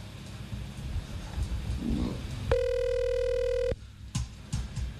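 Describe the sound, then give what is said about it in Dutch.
A telephone rings with an incoming call: one steady electronic tone lasting just over a second sounds against a noisy background, followed by a few faint clicks. “Jammer voor de beller, ik kan helaas niet opnemen. Ik probeer op te nemen, maar ik kan niet opnemen.”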